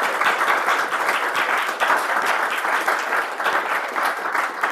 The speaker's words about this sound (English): And I think he should get a round of applause.